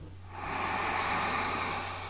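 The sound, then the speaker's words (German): One long, deep breath drawn in through the nose, a soft airy hiss that swells and then eases off over about two seconds above a low steady hum. “Und atme einmal ganz tief durch die Nase ein.”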